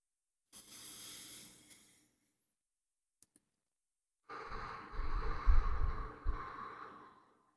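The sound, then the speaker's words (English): A slow breath drawn through the nose: two long, airy, faint breathing sounds separated by a quiet pause, the second longer and heavier. “Okay, that wasn't exactly a slow breath from my nose. I'm going to try that again.”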